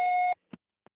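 An answering machine beep: a single steady, mid-pitched tone lasting about a third of a second, then two faint short clicks.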